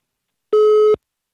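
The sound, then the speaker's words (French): A Skype call connecting tone: one short, steady electronic beep of about half a second at an unchanging pitch, sounding alone against silence. “Alors voilà, nouvelle tentative via Skype cette fois-ci, peut-être que ça va marcher.”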